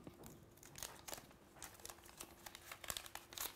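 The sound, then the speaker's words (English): Plastic protective film crinkles and crackles as it is peeled off a new violet Xiaomi 17T phone, with many faint, irregular crisp snaps and rustles running throughout, and no talking. “So let's get to the hero of the show finally. The satisfying peel.”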